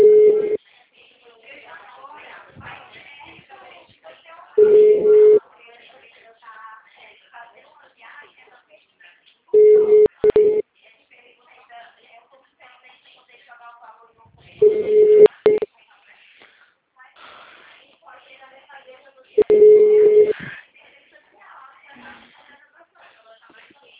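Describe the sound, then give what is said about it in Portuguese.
Telephone ringback tone while a call connects: five evenly spaced bursts of a steady mid-pitched tone, about five seconds apart, with faint background voices between the rings. “liguei na secretaria, na assistência, no esporte, no gabinete. Ah, tá chamando.”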